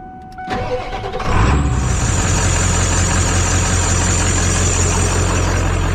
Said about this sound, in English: I don't think it's going to stress the truck out. So I'll kind of just give you guys like a driver's perspective of what it's like driving it.